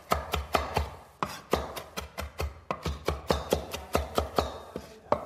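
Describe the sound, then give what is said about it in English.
A knife finely chops fresh parsley for a freekeh tabouleh, making many rapid, evenly spaced crisp strikes in a steady rhythm, with no talking. “just run your knife right through it. You want to make sure that you get a nice fine chop here.”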